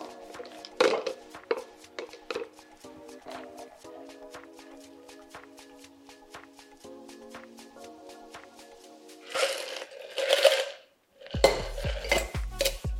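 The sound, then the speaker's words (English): A shaken cocktail being double strained into a glass: many light metallic clinks and taps of bar tools, then louder splashing bursts of liquid pouring near the end. “And then double strain that out.”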